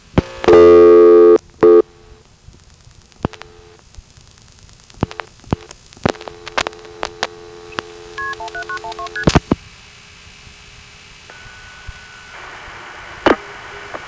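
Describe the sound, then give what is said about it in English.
Telephone keypad tones as the number 17912 is dialed. A few short electronic tone bursts and clicks sit over a faint line hiss, with no voices. “let's move on to the code 179, which, as you recall, well, I'll just dial 17912.”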